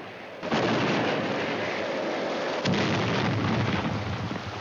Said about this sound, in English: The submarine's rocked again by the depth charges being scattered into the water.